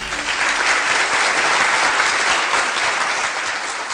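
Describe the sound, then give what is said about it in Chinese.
An audience applauds to welcome a guest, a steady dense burst of clapping that stays loud and even for about four seconds. “来，大家热烈欢迎一下。”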